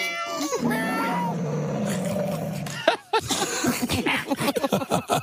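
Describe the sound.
A person imitates a cat with a long, drawn-out meow that bends downward into a yowl, loud and alone. A string of short, choppy vocal bursts follows.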